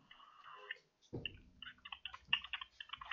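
Typing on a keyboard: a quick, irregular run of many soft clicks, fairly faint and with no voices over it.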